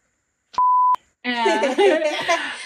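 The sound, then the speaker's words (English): A censorship beep covers a swear word: one steady, mid-pitched electronic tone lasting under half a second, cut cleanly at both ends, then a person starts talking. “yeah, sorry, I have to beep it out.”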